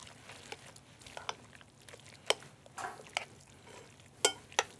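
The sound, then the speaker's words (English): Fresh ricotta filling is mixed, with egg to firm it up: soft, faint wet stirring broken by irregular sharp little clicks and squelches. “So just mix this in. And you can see it just starts to form into a beautiful...”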